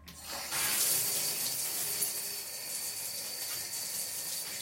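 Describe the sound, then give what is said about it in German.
A shower runs with a steady, dense hiss of falling water that swells in after a brief quieter start and stays loud and even to the end. “Als mein Telefon klingelt, ist es genau 2 Uhr nachmittags und ich stehe unter der Dusche.”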